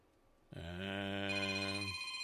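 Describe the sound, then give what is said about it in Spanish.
A telephone rings during a radio DJ's on-air show, one loud, steady, buzzy electronic ring held for about a second and a half, then a thinner high tone lingers briefly. No one speaks over it. “Espérame tantito, déjame contestar esta llamada.”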